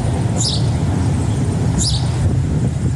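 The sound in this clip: Bird calling with two short, high chirps about a second apart, heard over a loud, steady low rumble of background noise.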